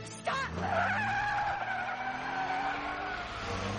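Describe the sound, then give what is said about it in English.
A car's tires skid in one long, loud, continuous squeal during a spinning accident. The squeal holds steady for several seconds after a sharp onset. “Tire skid. It's like the longest accident.”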